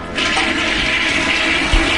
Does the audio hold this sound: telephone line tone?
no